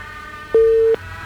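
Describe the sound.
A telephone busy tone sounds on a dropped call-in line: one loud, flat, steady beep lasting under half a second, alone over a low background hum.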